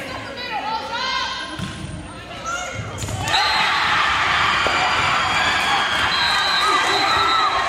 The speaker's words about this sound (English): if you want to know what a marquee win sounds like, it sounds like this.